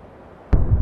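A V-1 flying bomb explodes behind trees in a wartime city: after a quiet, low rumbling stretch, a sudden loud, deep boom bursts in and keeps rolling as a heavy, rumbling roar to the end.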